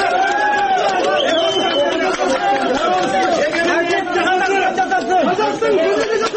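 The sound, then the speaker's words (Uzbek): A crowd of hundreds greets and congratulates a woman freed from court, with many voices talking and calling over one another in a steady, lively babble. “Sud zalidan ozod etilgan Sayragul Saudbayni yuzlab odamlar tabrikladi bilan kutib oldi.”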